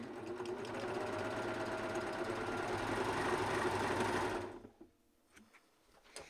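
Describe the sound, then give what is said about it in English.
Sewing machine with a looper thread stitching off the fabric of kid leggings after a securing stitch. A steady, rapid whirring buzz runs for about four seconds and then stops, leaving a few faint clicks. “I did do the little securing stitch though, and now I'm just stitching off my fabric.”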